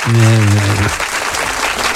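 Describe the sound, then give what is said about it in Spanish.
Audience applause breaks out after a brief sustained tonal sound, then continues as a loud, dense wash of clapping that stays fairly even to the end. “Ahí están, siguen los aplausos.”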